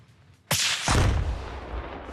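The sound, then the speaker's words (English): A gunshot is fired at a muntjac-shaped practice target with an orange aiming disc. A sharp, loud crack is followed by a heavier low boom and a long rumbling tail. “Do you want to shoot a muntjac now?”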